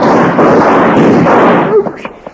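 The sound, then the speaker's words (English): A single loud gunshot bursts out as a broad, roaring blast that holds briefly, then breaks up and fades into a few faint crackles. “You thought you just shot him”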